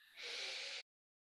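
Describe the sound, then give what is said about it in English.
One deep, breathy inhale during a guided breathing exercise, a single smooth hiss of air rising quickly and held steady for under a second, alone and then silence. “let's take three deep breaths together.”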